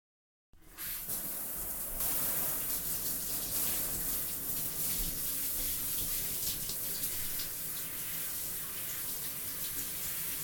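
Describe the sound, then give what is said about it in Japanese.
Running water from a tap wets someone's hair for washing. After a moment of quiet the stream starts abruptly and continues as a steady, even hissing splash to the end. “洗ってあげるから貸して。頭濡らすから。”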